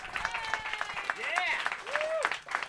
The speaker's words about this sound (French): Sinon, ben, on va l'applaudir.